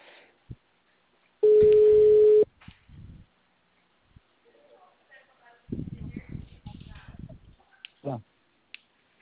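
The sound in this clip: A telephone ringback tone on an outgoing call sounds as one steady, mid-pitched beep lasting about a second, followed by soft clicks and then a voice talking.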